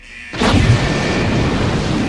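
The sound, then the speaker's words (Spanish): A controlled explosion sound effect, a bomb disposal unit detonating a sock: a brief quiet lead-in, then a sudden loud blast that turns into a sustained, roaring, rumbling wash of noise. “La unidad de artificieros hizo una explosión controlada del calcetín.”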